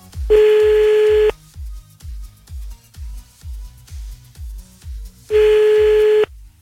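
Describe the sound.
A telephone call being placed back to a caller: two long, steady ringing tones about five seconds apart. A soft, regular low thumping beat runs underneath throughout, and no one speaks.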